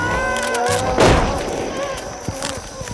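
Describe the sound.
A single gunshot booms out abruptly: one sharp, loud blast that stands out from the quieter surrounding sounds and decays over about a second.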